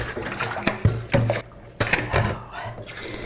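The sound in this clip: Tap water runs and splashes as radishes are rinsed, a broad, uneven hiss broken by a few soft knocks and bumps.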